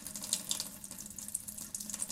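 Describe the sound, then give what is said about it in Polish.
Water pours steadily into a 60 by 30 cm aquarium, 40 cm tall, filling it to a depth of one centimetre, making a faint, continuous rushing hiss with light splashy flicker and no voices. “Żeby pokazać, jaką ilość wody może nieść za sobą z pozoru niewielki deszcz, napełnimy akwarium do wysokości centymetra.”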